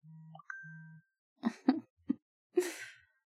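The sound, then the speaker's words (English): A mobile phone notification sound: a short electronic sequence of a low buzzing tone and a bright high ding, then four squelchy synthetic bursts, fairly loud and alone. “Oh, that was my phone.”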